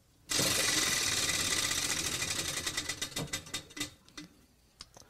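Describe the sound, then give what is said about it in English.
A prize wheel spins with rapid, dense clicking that gradually slows, the ticks spreading farther apart until a few last, separate clicks sound before it stops. No one speaks. “spin that wheel”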